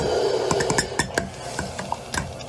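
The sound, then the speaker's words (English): A spoon stirs sauce in a pot, making many irregular light scrapes and clinks against the pot over a steady low background hiss. “stir it around.”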